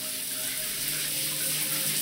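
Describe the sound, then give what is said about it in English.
Water runs steadily from a shower, a constant broad hiss of spray that stays even throughout, with no voices. “went to let Dante outside, then hopped in the shower.”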